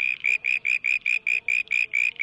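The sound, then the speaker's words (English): A male southern brown tree frog calls in a rapid, evenly spaced series of short, high, buzzy pulses, each one loud and clear with brief gaps between them and no other sound around it. “That's the sound of a male southern brown tree frog looking for a date.”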